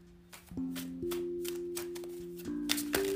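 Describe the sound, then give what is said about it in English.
Tarot cards shuffled and drawn for a reading, with many crisp, papery riffles and flicks over sustained steady musical tones. “So we're going to pull three cards, make it quick and easy.”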